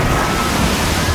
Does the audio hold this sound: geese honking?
no